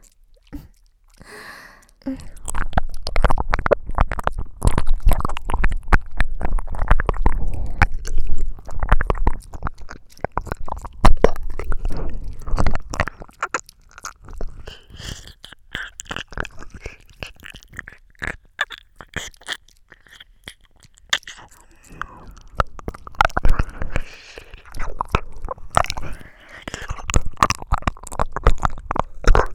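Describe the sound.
Wet ear-licking mouth sounds from an ASMR recording: many close, moist squelches, smacks and crunchy clicks that continue densely and unevenly throughout, with no spoken words.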